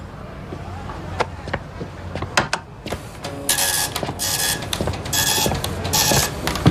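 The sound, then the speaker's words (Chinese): A printer whirs and clatters as it prints a list of laundry customers. Its steady mechanical chatter and repeated ratcheting run under people talking. “打印一份洗衣服的客人名单，楼下的没墨了。”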